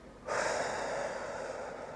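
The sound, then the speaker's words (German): A deep breath is drawn in during a guided breathing exercise. The inhale is a single long, airy rush that starts abruptly and stays steady for well over a second, with no talk. “Dann nimmst noch einen Atemzug”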